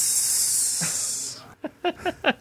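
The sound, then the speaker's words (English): A voice imitates a snake's hiss with a long, loud, steady hissing breath lasting over a second, followed by a few short vocal bursts. “I'll do the sexy snake.”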